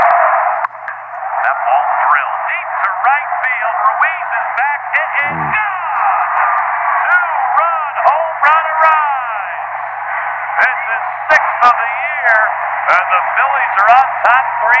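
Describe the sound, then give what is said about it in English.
Radio play-by-play of a baseball game, heard through an earpiece, comes through steady hiss and static. The announcer's voice is thin and narrow-toned and talks continuously with no break. “I would be listening to like a Phillies game over all this static and whatnot. And it would sound something like this.”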